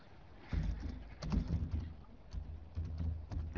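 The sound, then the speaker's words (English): Typing on a computer keyboard comes as several irregular bursts of soft, quiet key clatter separated by short pauses. “Hold on. Let me type and then talk.”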